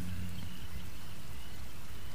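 Rain falling on a swamp, a steady, even hiss of many drops that runs unbroken from start to finish.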